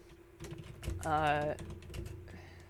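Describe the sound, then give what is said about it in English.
Soft typing on a computer keyboard, a few quick faint clicks scattered through the moment, with a brief voiced hum in the middle. “I can't type and talk at the same time.”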